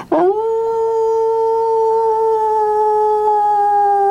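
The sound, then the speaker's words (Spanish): A dog's howl, long and loud, rises briefly at the start and then holds a steady, clear pitch for about four seconds with no other sound. “Es un lugar oscuro, taladrado por el aullido de perros que caminan en una sola pata.”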